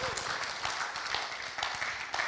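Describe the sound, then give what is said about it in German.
Congregation applause at a church service: dense, steady clapping from many hands, fairly soft and continuous throughout, with no speech over it. “Einfach einen Applaus ihm geben, dass er hier ist.”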